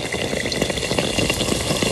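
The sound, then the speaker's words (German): Yeast dough frying in hot oil for Auszogne, fried yeast pastries with a thick soft rim and a paper-thin centre: a dense, steady sizzle with fine crackling and popping throughout, no voices. “Der Störmann hat am Wochenende Auszungen gemacht. Frittierter Hefeteig mit so einem dicken, weichen Rand und in der Mitte sind die so hauchdünn”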